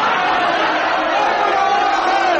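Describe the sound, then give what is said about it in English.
An audience split into teams heckles a man, with overlapping voices shouting and jeering in a loud, continuous crowd din that barely varies in level. “so now could we have both teams heckling this man”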